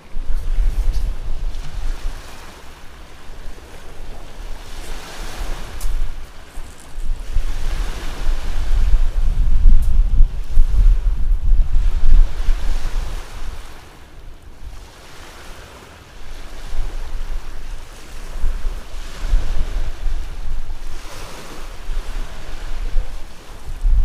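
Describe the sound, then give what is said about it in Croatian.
Wind gusts at the seaside, mixed with rolling surf. The roar swells and eases in long surges, strong at times and lighter at others, and no one speaks. “Vidite, moramo reći da ovako ovo izgleda sunčano i glamurozno, ali to nije baš tako, zato što puše vjetar,”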